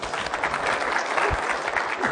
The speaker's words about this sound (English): Give her a hand clap and thank you.